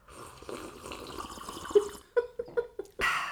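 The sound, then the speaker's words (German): Coffee is sipped and slurped: a soft liquid murmur is followed by several short, wet slurping sounds and a longer final slurp. “Ja, ich muss ganz kurz einen Schluck Kaffee zu mir nehmen.”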